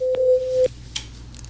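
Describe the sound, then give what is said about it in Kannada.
Telephone line tone after a phone-in call is cut off: one steady, pure mid-pitched beep holds for a little over half a second, then stops abruptly, followed by faint clicks and low background hum. “Hello, okay, ಕರೆ cut ಆಯ್ತು.”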